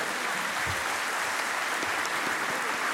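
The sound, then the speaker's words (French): Audience applause breaking out after a joke, a fairly quiet, even hiss of many hands clapping that stays steady from start to finish without distinct voices. “C'est bizarre les applaudissements d'habitude et on fait pas ça.”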